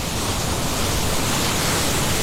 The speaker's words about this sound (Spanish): Playa, brisa, mar, sol, arena.